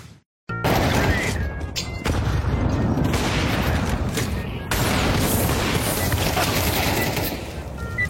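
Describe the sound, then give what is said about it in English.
Loud, dense explosive roar from incendiary blasts in a video game, a continuous barrage of booming crackle lasting about seven seconds after a brief silent start. “Who's using incendiaries on the fucking warm-up, mate?”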